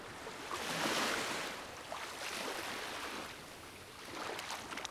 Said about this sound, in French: Je m'en remets à l'océan, au tumulte des vagues, à la joie des éléments.